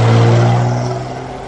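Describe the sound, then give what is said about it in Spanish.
A Mercedes car drives in through a gate without stopping: a loud, steady engine hum that gradually fades over a second and a half. “Llega el Mercedes de Iván. Regula le abre la verja y Paco se acerca con sus muletas. El coche entra sin detenerse.”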